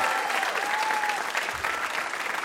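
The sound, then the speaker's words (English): Applause from a live game show audience welcoming a guest, a steady, dense wash of clapping that holds at an even level for the whole 2.5 seconds. “How about a hand for our VIP, Adam Rapoport?”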